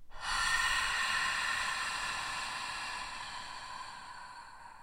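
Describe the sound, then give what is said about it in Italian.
One long, airy breath through the mouth is taken during a guided breathing and relaxation exercise. It is a soft, steady hiss that slowly fades over several seconds, quiet and without talk. “Inspira ed espira profondamente dalla bocca.”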